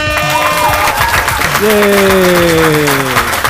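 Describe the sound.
Applause and cheering from a crowd, a steady wash of clapping under a loud tonal jingle whose sustained notes slide and shift in pitch.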